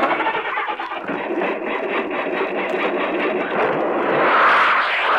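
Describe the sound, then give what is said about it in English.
A rocket engine roars as it starts and blasts off into space: a dense, rushing, hissing rumble that holds steady and swells louder toward the end, with no voices. “And with inches to spare, they made it. Just as the boy and the window washer were about to scoop them up, they blasted off into space.”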